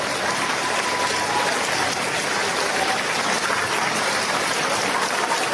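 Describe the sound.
A crowd applauds and cheers at an election campaign rally for a retired air force general, a dense, steady roar of clapping that holds at an even level throughout.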